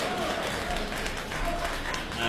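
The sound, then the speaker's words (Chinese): An audience applauds at a Beijing traditional opera and folk performance, a dense wash of clapping at a steady level with voices mixed in underneath. “这个大家鼓掌，再来一段。”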